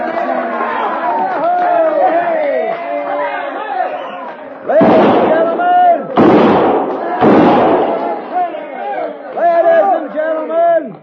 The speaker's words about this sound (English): kindly refrain from shooting six guns in the establishment